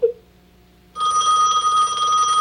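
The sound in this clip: A telephone bell rings in one loud, continuous burst with a bright metallic tone. It starts after a short faint sound and a moment of near quiet.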